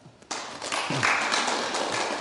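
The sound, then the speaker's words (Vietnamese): Applause from listeners after a Dharma talk breaks out abruptly and continues as a steady, even wash of clapping from a group. “Ủa mà vỗ tay vụ gì vậy? Mình nghe pháp thôi, có em có hát hò vậy đâu.”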